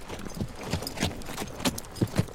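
Horse hooves clip-clop at a waterhole in an irregular run of several firm, hollow hoofbeats, moderately loud against a light background hiss.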